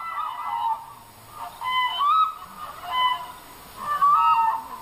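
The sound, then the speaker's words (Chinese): Demoiselle cranes call in flight over a village in rural Yunnan, China. A few bursts of honking, trumpet-like cries come with short pauses between them, some overlapping as several birds call together. “飞过来了，飞过来了，梭羽鹤飞过来了。”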